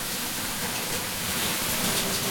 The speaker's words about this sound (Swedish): När de går in i bastun och kastar vatten på stenarna